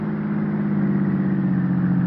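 A car engine drones steadily as the car drives up to the steps of a house. The hum is continuous and even, with no voices over it.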